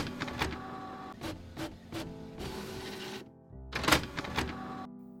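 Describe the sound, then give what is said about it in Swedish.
Printer printing out pages: whirring feed motors, quick mechanical clunks and bursts of rattling as paper runs through, ending in a low hum. “Jag skriver ut faktan här.”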